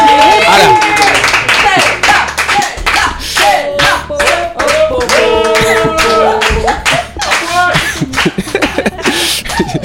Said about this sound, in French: Allez, ovation.